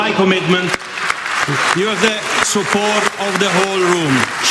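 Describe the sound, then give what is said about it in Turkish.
Applause fills a hall as a speaker leaves the stage after refusing to stand beside an Israeli representative. Loud, steady clapping runs throughout under prominent voices that sound like cheering or shouting. “Recup için salondan alkış koptu.”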